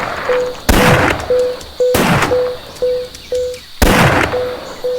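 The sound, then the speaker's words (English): Three loud bomb blasts from a video game, each a sharp bang that decays in a rumbling tail, separated by a recurring pattern of short electronic beeps at a steady pitch. “Axo Squad bomb just exploded.”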